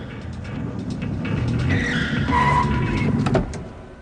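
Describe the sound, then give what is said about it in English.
Car rumbling up a ramp and braking to a halt, a steady low engine drone with a brief tire squeal near the end before the noise drops away. “As he rumbles up the ramp, a police car shoots past the entrance. Dom brings his car to a halt and gets out.”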